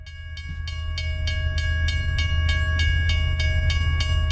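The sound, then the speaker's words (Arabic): A train runs along an old railway line between Oujda and Bouarfa in eastern Morocco, giving a steady low rumble with many regular clickety-clack beats of wheels over rail joints. A continuous tone sounds throughout, and no one speaks. “خط سككي قديم عتيق وعجيب يربط بين مدينة وجدة وبوعرفة. على امتداد مئات الكيلومترات يشق هذا القطار”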